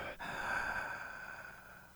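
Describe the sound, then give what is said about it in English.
A deep breath drawn in during a guided breathing exercise, a single continuous airy inhale lasting about two seconds, steady and fairly soft, with no talk over it. “One, two, three. Inhale.”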